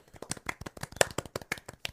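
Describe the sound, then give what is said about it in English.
A few people clap separately at the same moment, producing a rapid, uneven run of many sharp hand claps for about two seconds. “Can we all do like claps on our respective ends?”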